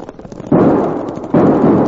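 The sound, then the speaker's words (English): Winchester army rifles fire two loud gunshots during a fight, about a second apart. Each is a sharp, forceful blast with a long, rumbling decay, and a low hiss runs beneath them. “Now get them Winchesters working! Them are army rifles!”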